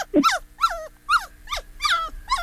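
A small pet dog growls and whimpers. A low rough sound at the start gives way to six high, nasal whining yelps, each falling in pitch, repeating at a steady rhythm at moderate loudness.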